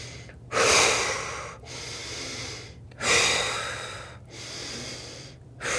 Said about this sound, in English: Breathe it out. Close your eyes and breathe it out.